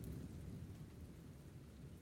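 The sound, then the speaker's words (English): A thunderstorm with rain: a faint, continuous low rumble of thunder beneath a steady hiss of rainfall, with no voices. “It came with a storm.”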